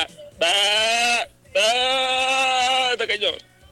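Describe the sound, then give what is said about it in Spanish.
Sheep-like bleating: two long, loud, quavering bleats, then a run of shorter, broken bleats that fade out. “No le había entendido, oye, qué buen borrego.”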